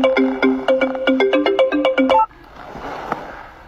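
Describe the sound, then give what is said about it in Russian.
A phone ringtone for an incoming call plays as a bright, quick electronic melody of many short repeated notes, then cuts off abruptly after about two seconds, leaving faint background noise. “Входящий звонок.”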